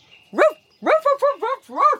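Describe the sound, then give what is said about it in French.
A large white and beige dog barking: six mid-pitched barks in an uneven run, fairly loud, with a short gap after the first and a quick cluster in the middle. “Mon papy et ma mamie ont un chien qui s'appelle Isa. C'est un gros chien blanc et beige”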